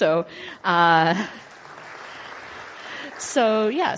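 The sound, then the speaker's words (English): An audience claps for a building and grounds team: a steady wash of applause between short bursts of voices at the start and end. “And so I want to give a hand to our building and grounds team, in particular Don Pollard. And our anonymous donor as well.”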